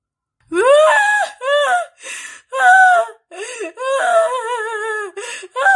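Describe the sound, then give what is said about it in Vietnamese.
A young woman in red with loose hair, crouched in a corner, sobs and wails in distress. She makes a string of loud, quavering, high-pitched cries broken by short gasping pauses, wavering in pitch as if shaking with grief. “Người áo đỏ kia chỉ lo khóc, khóc đến rùng rẩy tâm can, có vẻ vô cùng khổ sở.”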